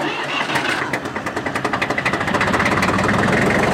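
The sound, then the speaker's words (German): An old three-cylinder air-cooled Porsche tractor engine, started with a separate starter switch and throttle, cranks and catches. Its loud, rhythmic firing pulses settle into a steady, throbbing run. “Ja, das ist doch Musik in den Ohren, oder? Genau, das ist jetzt ein Dreizylinderklang, Dreizylinder luftgekühlt”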